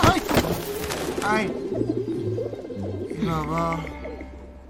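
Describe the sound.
Pigeons coo in low, throaty, repeated calls while a person's voice calls out over them.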